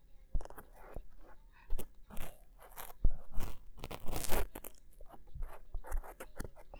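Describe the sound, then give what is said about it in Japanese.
A cotton swab scraping and rubbing inside an ear, with irregular crackly scratches and soft rustling strokes, a few sharper crunchy clicks standing out, close and fairly quiet without talking. “今日使うのは綿棒。綿棒はふわふわな、かき心地がすごく癒されるよね。じゃあ、入れていくよ。”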